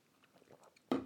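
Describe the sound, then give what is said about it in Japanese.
A person drinking water makes faint sipping and mouth sounds, then a sudden louder breathy gulp or exhale at the end. “美味しい水だなこんなに水は美味しかったですか信じられないぐらい美味しい”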